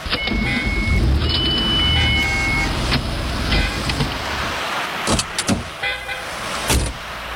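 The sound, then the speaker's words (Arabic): A car being parked: a steady, low engine rumble runs throughout, with a few sharp clicks and thumps near the end. “شوية شوية بس بدي اصف السيارة”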